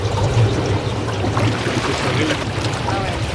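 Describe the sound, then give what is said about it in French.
Jacuzzi water churning and bubbling at a hotel above Lago Maggiore, a loud, steady wash of rushing, gurgling water that runs without a break. “Mais si c'est très chaud, il y a la piscine. Donc, ici, on peut... Le jacuzzi.”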